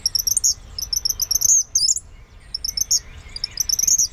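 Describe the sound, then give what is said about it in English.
Eastern kingbird calling in shrill, high-pitched bursts of rapid buzzy twitters, several short series repeated over a low background rumble. “eastern kingbirds sound more shrill, increasing in volume rather than decreasing as they continue.”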